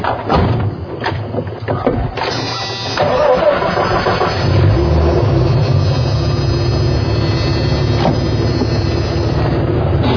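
A car with a stick-shift gearbox cranks and its engine starts, then settles into a steady running drone that grows slightly louder and fuller as it continues.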